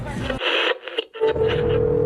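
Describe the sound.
A telephone ringing tone on a late-night call, a steady, even-pitched tone that emerges in the second half over busy bursts of noise.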